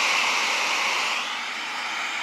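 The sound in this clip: Steady ocean surf played as background sound from a phone, a continuous broad hiss that eases slightly midway and carries on alone without voices.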